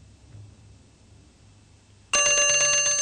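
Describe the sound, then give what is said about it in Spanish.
An alarm bell, used as a sound effect in a live radio drama, breaks in abruptly after near silence. It rings on loud and continuous with rapid metallic strikes until the end. “Suena una alarma.”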